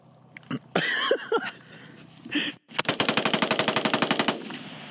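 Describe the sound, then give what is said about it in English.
Rapid gunfire from a fast-shooting gun: one sustained burst of many sharp, evenly spaced shots lasting nearly two seconds, preceded by a few scattered thuds and clicks. “So that shot much faster than I anticipated, obviously. So that was quite a demonstration. Even he, you know, a person who's experienced in shooting guns,”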